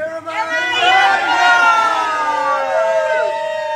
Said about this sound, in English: And that was everybody on the veranda of the pub enjoying a cold bevy.